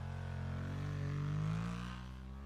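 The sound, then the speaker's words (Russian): A scooter's engine drones as it drives off. The buzzing tone holds steady, swells slightly louder midway, then eases off again. “Радик выкатил скутер на улицу, прыгнул на него и куда-то умчался.”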